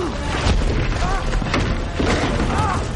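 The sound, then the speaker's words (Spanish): Large rocks crash down from tall stone spires in an animated prehistoric adventure, a dense, loud, continuous run of rumbling booms and heavy impacts with no clear gaps. “Grug los ve entre las nubes. Grandes piedras caen desde las agujas.”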